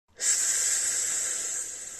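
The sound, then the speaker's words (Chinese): A slow, hissing exhale through the teeth, made during the 吐丝法 breathing exercise after a deep belly-filling inhale. One steady, airy hiss begins abruptly and holds for about two seconds, easing off slightly toward the end. “慢慢的吐丝，那么这就是一个吐丝法的过程。”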